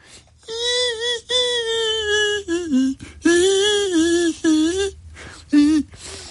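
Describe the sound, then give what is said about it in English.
A human voice imitates a tiny, high-pitched violin with wavering, sustained, bowed-like tones in several short phrases separated by brief gaps, fairly loud and alone. “So that's the sound of a tiny violin.”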